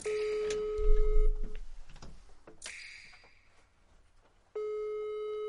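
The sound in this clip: Ringback tone of an unanswered phone call played on speakerphone: a steady, buzzy electronic tone plays, stops amid clattering handling noises and a brief quiet gap, then a second tone burst begins.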